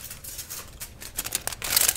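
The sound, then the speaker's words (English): Hair foils for highlights being handled at a salon: soft, papery rustles and light crinkles that turn brighter and denser toward the end. “Now, I do just have a couple foils to do while I'm back here, so I'll just do those now, okay?”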